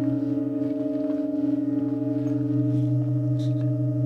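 Pipe organ tone with overtones: a steady, loud, sustained drone of stacked harmonic pitches holds unbroken throughout, with a faint shimmer of higher overtones above it.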